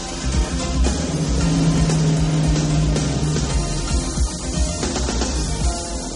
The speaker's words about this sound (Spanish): Ve el coche de Andrea irse mientras cierra la capota, llevándose al hombre que tenía que matar.